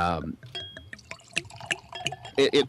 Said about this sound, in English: the capsule comes off, I have no idea what the cork is, and now whatever's in this bottle, and I'm about to pour it in here